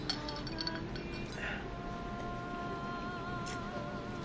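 Glasses clinking in a toast, a few light, high clinks with brief ringing tails, fairly faint over a quiet background.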